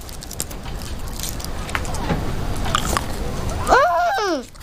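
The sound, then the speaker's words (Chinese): Someone bites into chocolate candy and chews, making soft crunching and wet mouth sounds, followed by a short voiced murmur near the end. “这叫巧克力，一种好好吃的糖。 我尝尝。”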